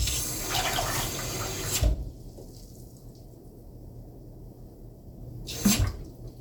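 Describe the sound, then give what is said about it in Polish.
Water poured into a device: a steady rushing splash runs for about two seconds and cuts off, then a brief second splash comes near the end. “O, teraz sobie nalejemy wody.”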